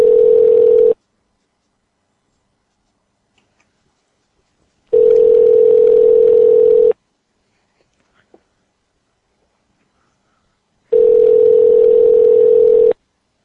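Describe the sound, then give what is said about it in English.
A dial tone on a Skype phone call: three bursts of the same steady mid-pitched tone, the first about one second long and the next two about two seconds each, separated by long silences. “It sucks that they all know we're calling from Skype now.”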